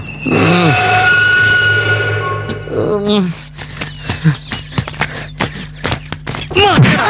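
Firecrackers burst as a temple offering at a goddess's festival, where the blasts are counted one by one. A rapid, irregular series of many sharp cracks follows an opening stretch of steadier, tonal sound.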